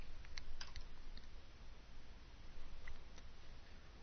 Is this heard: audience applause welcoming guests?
no